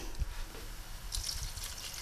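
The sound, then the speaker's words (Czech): A little water is poured into finely shredded red cabbage being stewed, giving a faint trickling and dripping over a soft, steady hiss. “Teď bych ho podlila trošku vody.”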